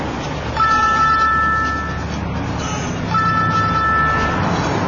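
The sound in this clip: Two sustained car horn blasts aimed at a swerving car, each about a second long and evenly pitched, over a steady traffic rumble.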